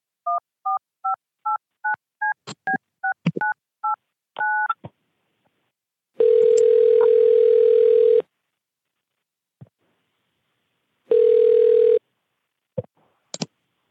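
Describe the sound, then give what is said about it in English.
Touch-tone keypad beeps while a call is placed: a quick string of short dialing tones, then two long steady ringing tones separated by silence, ending with a few faint clicks. “Now I'm gonna call this Tyrone guy”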